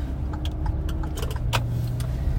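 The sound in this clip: Steady low road rumble inside a car being driven, with scattered light clinks and jangles like rattling keys over the continuous engine and tyre drone; no voices.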